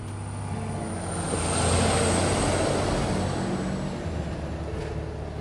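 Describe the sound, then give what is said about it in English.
A big yellow American school bus passes with a broad engine and road rumble that swells to a peak and then slowly fades. No voices are heard. “Here comes a school bus.”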